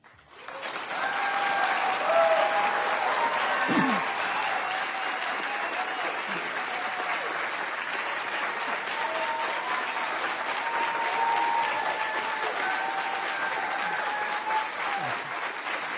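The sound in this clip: Sustained audience applause welcomes Senator Kamala Harris and Vice President Mike Pence at a vice-presidential debate. The steady clapping swells in quickly and continues evenly for the whole stretch without letting up.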